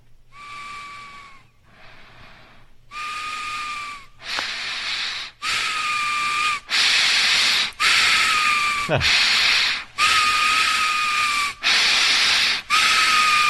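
Loud, whistling nose breathing: many repeated wheezy, high whistles come one after another in a steady rhythm and grow louder as they go, with a brief snort partway through.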